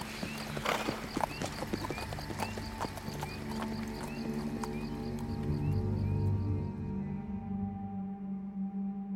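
Horse hooves clip-clop in a steady, continuous rhythm of many beats while riders travel toward a compound, with a sustained tonal background underneath throughout.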